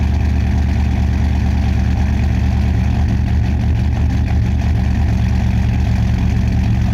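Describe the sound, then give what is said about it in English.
A modified, heavily cammed fuel-injected V8 car engine with intake and exhaust upgrades idles with a loud, steady low rumble and a choppy pulsing beat throughout, with no voices. “It's got to be fuel injected because it started up. It's definitely a V8. But it's modified. Thing sounds super cammy.”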